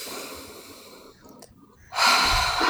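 A deep breath taken during a tapping exercise focused on tightness in the chest. A softer airy breath fades into a brief hush, then a sudden, loud, forceful rush of breath follows. No talk is heard.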